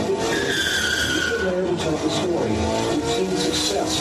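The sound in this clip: Tires screech as cars peel out, a steady, loud squeal with sliding whining tones over rough road noise, with talk faintly mixed in underneath.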